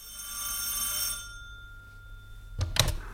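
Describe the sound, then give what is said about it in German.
An old telephone bell rings with a steady metallic trill that rises and then fades. A sharp clatter follows, like a receiver being lifted, and no one speaks. “Da läutete das Telefon.”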